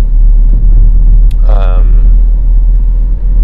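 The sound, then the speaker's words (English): A car drives on a frosty Saturday morning, its engine and road noise forming a steady low rumble throughout, with a brief voice-like sound rising over it midway. “Driving on a very frosty Saturday morning from my house in Hinckley to go to Derby”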